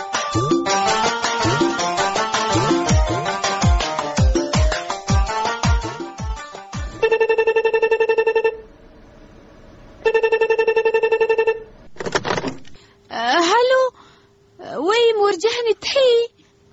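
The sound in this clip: A telephone ringtone sounds for an incoming call in two long, steady electronic rings, followed by voices.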